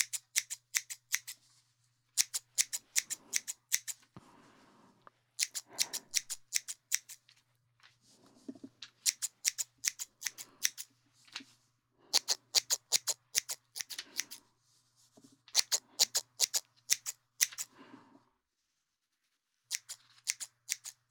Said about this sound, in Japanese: いっぱい切るから、終わったらさっぱりするぞ。